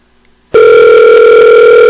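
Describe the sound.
Telephone tone at the start of a recorded phone call: after a brief near-silence, a loud, steady, unbroken tone begins abruptly and holds to the end.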